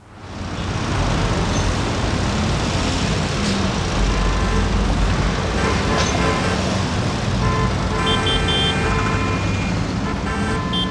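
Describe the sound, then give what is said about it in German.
Dense New York street traffic makes a steady, loud roar of cars, buses and trucks that runs unbroken from start to finish, with car horns sounding toward the end. “Und so hören sich alle zusammen in New York an. Traffic in New York.”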